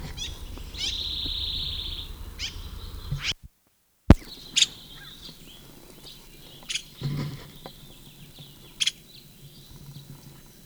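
A bird call identified as the sycamore bird: a sustained high, thin whistle, followed after a short silent gap by a few brief, sharp chirps over a quiet background.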